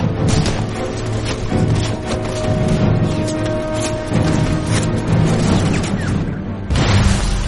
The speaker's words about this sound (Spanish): mientras los morteros y la artillería destruyen los árboles de fuera